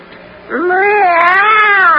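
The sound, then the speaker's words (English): A human voice imitates a cat's meow: one loud, drawn-out call that starts low, rises, wavers and then holds steady to the end. “this is my friend, the cat. Meow.”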